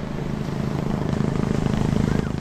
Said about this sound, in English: As I head down to the water, the Shark Patrol helicopter starts to hover ominously overhead.